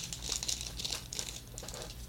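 Trading card pack wrappers crinkle as the packs are torn open. A dense, continuous run of crisp rustles and crackles.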